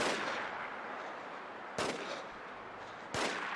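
Gunfire in a Sony third-person cover-shooter video game: two sharp, loud shots spaced about a second and a half apart stand out over a continuous noisy background, with no talk.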